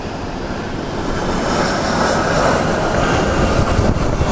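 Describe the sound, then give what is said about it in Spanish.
An airplane passes overhead with a steady, broad roar of engine noise that swells slightly and then holds at a fairly loud level throughout, with no talk. “Por ahí está pasando un avión.”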